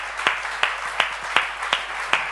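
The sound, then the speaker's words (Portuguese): A church audience claps together in rhythm, six sharp, evenly spaced claps at a steady, moderate pace over a soft background. “Um aplauso para todos, está certo?”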